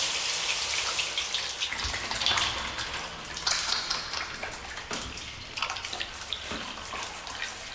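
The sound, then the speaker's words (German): Water rinses soap off, a steady rushing splash broken by irregular drips and small splashes throughout, with no talk over it. “Abspülen.”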